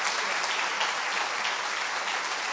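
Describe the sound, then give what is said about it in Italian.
A church audience applauding: dense, steady clapping from many hands, loud and continuous for the whole few seconds, with no single voice standing out. “Facciamo un forte applauso al Signore.”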